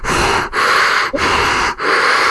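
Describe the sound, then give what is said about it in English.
A voice imitates heavy, rasping breathing through a mask, loud, hissing breaths in a steady in-and-out rhythm with brief dips between them. “No, because you sound like Darth Vader.”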